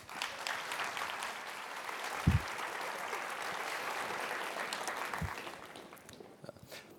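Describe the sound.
Audience applause welcoming a guest speaker at a healthcare event: steady, faint clapping from many hands that carries on for several seconds and thins out toward the end.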